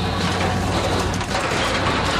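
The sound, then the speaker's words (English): Loud, steady grinding roar from an ice-crushing machine, with blocks of ice breaking into tiny pieces inside a fast-spinning drum while it fills a park with crushed ice. The dense mechanical churn runs continuously without pause. “We break off the blocks of ice into tiny pieces of this machine. It passes through a drum that spins so fast. It shoots the crushed ice through this hose.”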